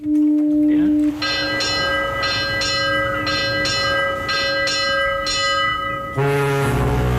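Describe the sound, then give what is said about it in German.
Ship's bell struck repeatedly as a ship departs, ringing in a series of bright, evenly spaced metallic strokes over a steady background hum, before a different, fuller tonal sound takes over at the end. “Wie oft hat da die Schiffsglocke geläutet?”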